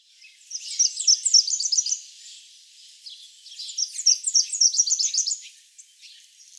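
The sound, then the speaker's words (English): A house finch sings two bursts of rapid, high-pitched warbling notes, each lasting nearly two seconds, separated by a short pause. “House finch.”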